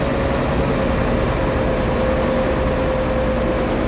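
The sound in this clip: Steady engine drone of a motor ship setting off on a sea voyage, a constant low rumble with a fixed mid-pitched hum running evenly throughout, with no voices.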